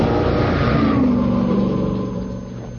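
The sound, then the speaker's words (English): An Alfa Romeo car engine revs in a loud, continuous roar from a sporty model sold for under $7,000. The steady mid-pitched drone eases off slightly toward the end. “Why drive a car when you can drive a legend for under $7,000? Alfa Romeo.”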